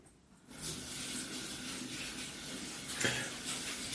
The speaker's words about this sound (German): So, jetzt gehe ich mir nochmal die Hände waschen.